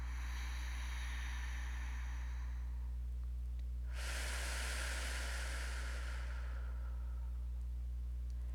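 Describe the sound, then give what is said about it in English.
A single long, deep breath drawn during a guided meditation, a loud, airy rush lasting a couple of seconds before it fades, with a steady low hum underneath throughout. “and one last deep breath, pulling in millions of stars”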